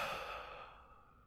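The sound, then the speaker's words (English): A single deep breath out, a soft, airy sigh that starts strongest and tapers away, faint and alone. “take a nice little deep breath in with me here. And let it out.”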